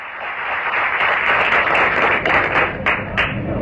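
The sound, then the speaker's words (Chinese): Audience applause at a live crosstalk comedy performance: dense, steady clapping that stays loud and continuous throughout, with no voices over it. “大家掌声这么热烈”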